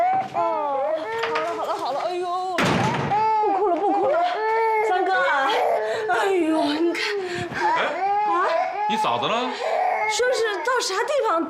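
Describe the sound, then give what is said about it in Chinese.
An infant cries in wavering, sobbing wails that rise and fall in pitch, continuing steadily and loudly throughout, with adult voices faintly present. “宝贝儿不哭了不哭了”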